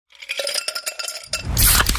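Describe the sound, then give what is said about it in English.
Pepsi Zero Sugar cola being opened and fizzing: a run of bright metallic clinks, then a loud, dense fizzing hiss that fills the final moments. “You hear that? That's the sound of Pepsi Zero Sugar.”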